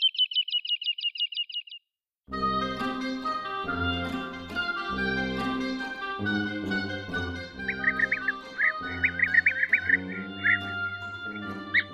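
Woodlark, a ground-nesting bird of sparse vegetation, giving its fluting lulululu call: a rapid run of about ten clear, even notes. Music with a few faint bird twitters follows.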